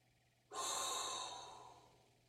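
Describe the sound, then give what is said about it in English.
A deep inhaled breath starts abruptly, then a long, steady airy rush slowly tapers off, heard alone without speech. “So all there is left to do is inhale a hot breath”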